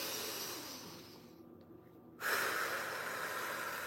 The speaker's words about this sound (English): Let's take a deep breath right now.